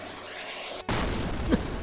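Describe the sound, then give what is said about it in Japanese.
Cannon fire booms out from a suspicious ship at sea in a Caribbean pirate setting. One sudden, loud blast lands partway through, and a broad, rumbling roar continues to the end. “なんだ不審船から砲撃だ”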